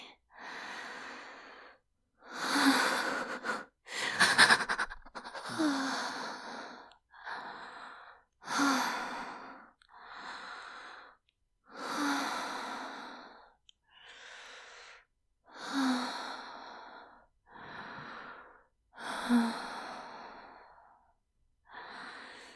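Slow, deep breathing: many long, sighing inhales and exhales in a steady rhythm with short pauses between them, fairly loud and heard alone with no talk.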